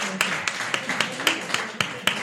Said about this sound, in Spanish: Bueno, un aplauso. Un aplauso.